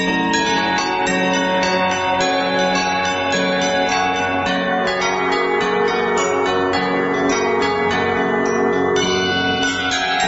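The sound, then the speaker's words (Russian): Church bells peal after a clock strikes twelve, many overlapping bell strokes ringing densely and loudly together for the whole stretch, with no pause and no voices. “часы пробили 12 раз, и в следующий момент все в округе залилось колокольным звоном.”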